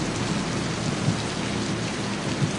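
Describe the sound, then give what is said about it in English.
Rain falling on a rental car stopped at a curb, with its windshield wipers running. A steady, even hiss of rainfall continues throughout, with faint soft thumps occasionally surfacing beneath it. “Their rental car pulls to a stop at a curb, the windshield wipers battling the rain.”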